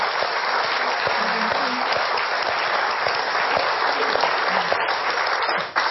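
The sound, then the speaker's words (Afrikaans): Applause from an audience thanking a woman speaker after her talk, a dense, steady wash of clapping that holds at an even loudness for the whole stretch and dips briefly just before the end. “Kom ons geef haar hand.”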